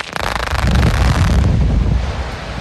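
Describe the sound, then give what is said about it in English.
Rock blasting at a mine near a community in Ogun State, Nigeria, starts with a sudden loud onset and then holds a deep, roaring rumble. The rumble is broad and buffeting, like heavy wind, and lasts a couple of seconds with no talk. “That's the deafening sound residents at Igare land, a community in Ogun State, endure every time Zhong Tai Mining Nigeria Limited blasts rocks.”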